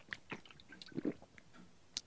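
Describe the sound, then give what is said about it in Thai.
Quick, soft chewing and biting as a child eats hastily, faint and irregular, with a few louder wet, crunchy bites. “กินช้าๆสิเดี๋ยวก็ติดคอหมด”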